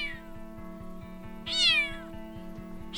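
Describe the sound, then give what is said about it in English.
A cat gives one clear, drawn-out meow that rises and then falls, heard over a steady low hum with faint, regular ticking throughout. “I'm glad that she fits some sound of a cat meowing in there.”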